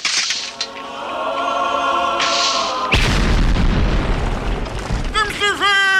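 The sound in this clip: A hand grenade explosion: after a stretch of voices, a sudden loud, broad boom bursts in and trails into rumbling noise, with voices rising again near the end.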